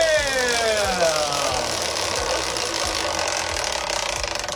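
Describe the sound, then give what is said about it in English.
A prize wheel gets a big spin in a game for kids, its pointer ticking rapidly against the pegs in many fast clicks over a steady whirring hum. “Here comes a big spin of the Whiz Kid Wheel.”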